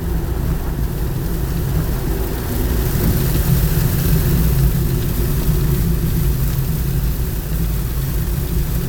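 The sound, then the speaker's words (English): Heavy rain from a rainstorm, a dense, steady, loud roar with a deep low rumble running unbroken throughout, with no voices. “Man, I'm in a rainstorm here”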